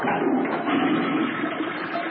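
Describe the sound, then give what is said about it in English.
A toilet flushes with a loud, continuous rush of water that stays steady and unbroken from start to finish. “Hear that? That's the sound of nearly 3 million American jobs being flushed down the toilet.”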